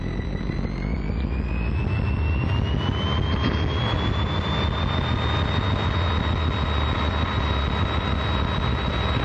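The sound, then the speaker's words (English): A Piper Cherokee light aircraft engine roars steadily on its takeoff roll, with a high whine that climbs in pitch over the first few seconds and then holds level, unbroken and without voices. “Cherokee 47851, Chandler Tower, fly runway heading, runway 4 left, clear for takeoff.”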